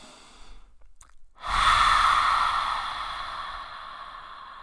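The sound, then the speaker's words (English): A deep breath let out through the open mouth during a pranayama meditation practice, a long, breathy, whooshing exhale that swells suddenly and then slowly fades over a few seconds, heard alone after quieter breathing. “And then take a deep, deep, deep inhalation. Open your mouth and let it go.”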